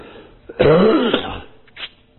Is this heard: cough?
yes